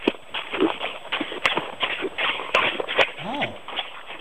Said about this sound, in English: Okay. Tap dancing.